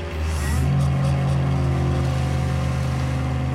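An ice resurfacing machine's engine runs on a hockey rink, giving a steady, low mechanical drone with a rich humming tone that swells slightly early on, then holds at an even, fairly loud level throughout.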